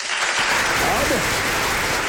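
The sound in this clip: Applause greeting a singer at a karaoke-style singing session: a dense, even patter of clapping runs throughout, and a voice speaks over it partway through.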